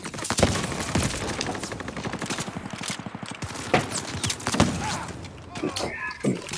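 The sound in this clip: Video game gunfire rattles in rapid bursts, with many sharp shots fired in quick succession and a few louder cracks standing out from the steady stream.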